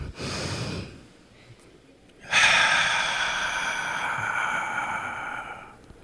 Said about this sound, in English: Let's take a deep breath.